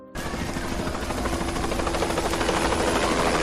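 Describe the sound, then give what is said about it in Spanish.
A firefighting helicopter battling a wildfire near Valencia de Alcántara, Cáceres, starts abruptly. Its loud, steady rotor roar and rhythmic blade chop continue alone and grow slightly louder over a few seconds. “Este es el sonido de uno de los helicópteros que ha ayudado a extinguir un incendio en la localidad de Valencia de Alcántara, en Cáceres.”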